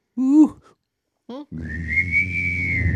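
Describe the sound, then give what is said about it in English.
A person whistles and hums at the same time: two short voiced hoot-like sounds come first, then a sustained, steady high whistle rides over a low hum for about a second and a half. “That's like three sounds. Whistling, humming, yeah. That was like a hum, was and a whistle, and a hoot.”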